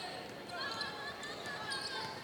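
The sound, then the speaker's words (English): A basketball is dribbled left-handed and then behind the back by a player in a women's game involving Sun Valley, the bounces faint and blurred within a constant, even bed of gym noise. “Left-handed dribble now behind the back, still between the circles.”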